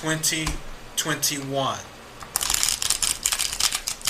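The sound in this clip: Playing cards being shuffled for a Capricorn reading, a dense, crisp riffling clatter that follows a stretch of speech.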